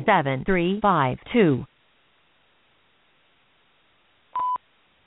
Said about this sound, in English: It seems we're having a little trouble getting Mr. Cruz on the phone. Let's see if I can get through again.